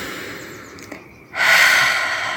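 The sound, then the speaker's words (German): A deep breath drawn in through the nose and let out through the mouth during a relaxation exercise: a soft, quiet inhale is followed by a louder, breathy exhale that carries on to the end. “atme nochmal tief und vollständig ein und aus, jetzt durch die Nase ein und durch den Mund aus.”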